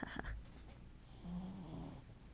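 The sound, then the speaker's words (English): A puppy snoring faintly, with soft raspy breaths and one short, low snore near the middle, all very quiet. “Oh, that was my puppy snoring.”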